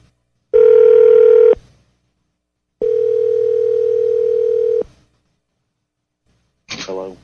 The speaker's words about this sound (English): Let's call him. Okay, call him up. All right. I bet you it goes to voicemail.